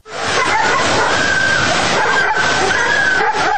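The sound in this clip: Many dogs barking and howling at a dog shelter flooded by a swollen river, a dense, continuous, loud clamor of overlapping barks and whines with no pauses.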